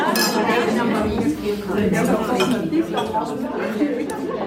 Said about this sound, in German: bevor es zum Apero geht, wo das Treffen vom Club auf der Luzerner Landschaft abschließt